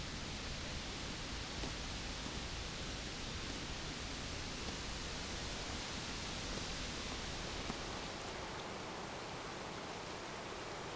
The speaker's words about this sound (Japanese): あそこから沢に降りれます。清流の音が心地よいので、あの辺りで少し、お話ししませんか？